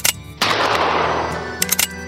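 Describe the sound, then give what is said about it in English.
Two revolver shots, fired in quick succession, each a sharp, loud burst, the second trailing into a long rumbling tail with a few faint crackles near the end. “Garrett drew his revolver and fired twice.”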